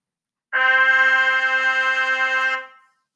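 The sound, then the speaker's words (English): A trumpet plays the note C with no valves pressed: one sustained, steady tone lasting about two seconds at even loudness before it fades out. “The first note that you will play will cause you to lift all your fingers and not play any of the valves. This note is called the C. Then, when you blow, it should sound like this.”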